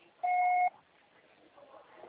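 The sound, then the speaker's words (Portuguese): A voicemail recording beep on a phone line sounds as one steady, clear electronic tone lasting about half a second, followed by faint low background hiss. “Grave seu recado agora.”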